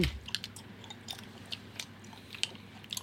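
Chewing of a hard, rubbery food likened to rubber bands and hard to bite through: faint, irregular squelchy crunches and bites repeat many times in steady succession with no talk.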